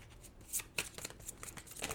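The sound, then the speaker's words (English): Tarot cards being shuffled and drawn, heard as a faint, dry papery rustle broken by a few soft snaps and flicks, with no talking. “Let's get a couple more tarot cards, and then I'm going to pull us an oracle card, and we'll wrap it all together.”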